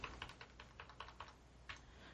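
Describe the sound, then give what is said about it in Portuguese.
Typing on a computer keyboard: many faint key clicks in short, irregular bursts with brief gaps, with no other sound. “Deixa eu anotar aqui, ó. Ó, universo. Aguenta aí. Essa, tá me trolando esse teclado aqui, gente.”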